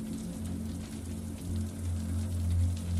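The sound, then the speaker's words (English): Rain trickling down a window, a steady, soft wash of drops that runs continuously and quietly over a low, even rumble. “all the sounds but for the trickle of rain down the window”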